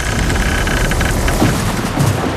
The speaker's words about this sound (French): Et on prend également l'orage